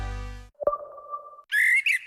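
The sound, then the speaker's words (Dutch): A blackbird singing, among the first of the season. A clear, fluty whistled phrase gives way to higher, brighter twittering notes. A low humming tone briefly precedes the song. “Word jij ook zo blij van de eerste zingende merel?”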